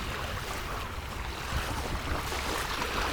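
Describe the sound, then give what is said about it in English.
Ocean waves wash onto a shore with wind buffeting the microphone, a continuous rushing surge that swells slightly louder in the second half. “And a bit closer to the waves for you.”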